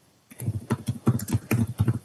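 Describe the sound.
Keyboard typing in a quick, irregular run of many clicky keystrokes, fairly loud and steady, with no talk.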